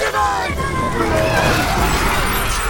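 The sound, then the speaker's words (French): Loud, continuous crashing and shattering as a colosseum is destroyed, a dense wall of smashing noise running for the whole stretch with crowd hubbub and voices mixed in. “Ils sont en train de détruire tout le Colisée.”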